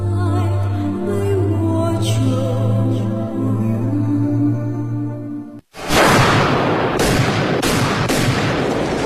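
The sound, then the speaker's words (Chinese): Crisp gunshots in a film scene: a few sharp, loud cracks follow a stretch of low, sustained tonal music that cuts off abruptly just before the shots. “随着几声清脆的枪声”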